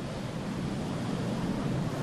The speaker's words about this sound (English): Reaching up to over 200 metres, the cliffs of Moher are pummeled by over 1,000 tons of water in every wave. Waves pounding the coastline in slow motion.